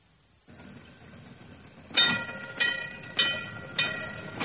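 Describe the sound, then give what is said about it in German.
Tram rolling along its rails: a low, steady rumble joined by four evenly spaced, sharp metallic clacks, with no voices. “Das ist die Straßenbahn.”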